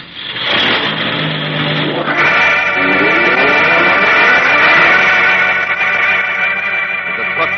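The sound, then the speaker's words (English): A truck's engine roars as it drives off and accelerates hard in a radio-drama kidnapping scene, a loud, continuous motor note that climbs in pitch and then holds high. “Okay, drive to the bend and step on it.”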